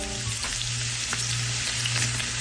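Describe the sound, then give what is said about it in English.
Bacon frying gives off a steady, dense sizzle with scattered faint crackles and pops. The sound is continuous and even throughout, with no voices. “This? What is that? It's the sound of bacon. It's bacon.”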